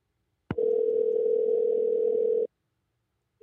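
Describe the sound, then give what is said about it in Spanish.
A telephone dial tone while a call is being placed: a sharp click, then a steady, unbroken tone of about two seconds that stops abruptly, followed by a brief faint blip. “vamos a estar llamando ahora mismo.”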